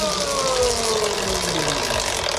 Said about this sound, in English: let's spin the wheel. Do you want a big spin or a little spin? Big spin.